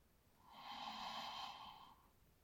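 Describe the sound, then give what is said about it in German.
A single long, deep breath taken during a meditation, soft and airy, swells gradually and then fades away in quiet surroundings. “Um dann zum Abschluss der Meditation drei tiefe Atemzüge zu nehmen. Tief und bewusst in den Bauch einatmend”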